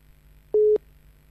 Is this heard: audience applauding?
no